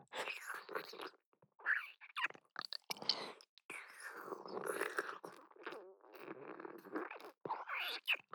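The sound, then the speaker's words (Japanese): Someone eating a meal: soft chewing and biting mouth sounds with small clicks, broken by brief pauses and mixed with quiet whispering. “ごちそうさまでした。すごい、本当に全部食べちゃった。”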